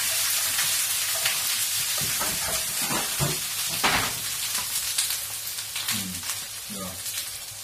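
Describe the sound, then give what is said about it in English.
Fish sizzles and hisses as it fries in a pan, a steady, dense crackle with small pops, while voices murmur faintly in the background. “You're cooking everything, all the fish.”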